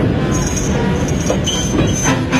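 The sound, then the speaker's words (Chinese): A train brakes hard for someone on the tracks but keeps rushing forward: a loud, steady rolling rumble with a thin, high wheel squeal drifting above it, no clear let-up in loudness. “但是列车在巨大的惯性下仍然以雷霆万钧之力冲向前。”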